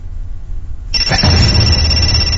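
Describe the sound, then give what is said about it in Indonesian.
A telephone suddenly rings, a loud bright electronic ring that cuts in after a quiet low hum and carries on unbroken. “Dan tiba-tiba”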